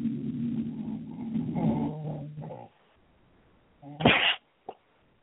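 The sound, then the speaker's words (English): A dog barking at a squirrel: after a stretch of low rumbling noise comes a pause, then one loud, sharp bark and a brief, softer second yelp. “You can hear my dog.”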